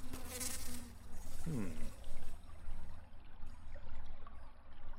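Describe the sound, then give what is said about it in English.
Bugs buzz and scuttle in a dark, dirt-floored room as they mill around. A continuous, wavering insect drone mixes with restless scratchy rustling and holds at a moderate level throughout. “As you fill the room with light, they dig into the dirt. But they're all shades of brown, black, and white. as the various bugs mill around.”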